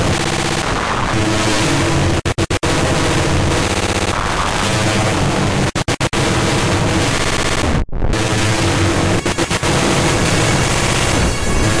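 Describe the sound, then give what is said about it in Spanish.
Heavy, sustained gunfire during an armed standoff, a loud, dense rattle of continuous shots lasting nearly twelve seconds, broken only by a few very brief gaps before the firing resumes. “Entre tanto se siguen disparando”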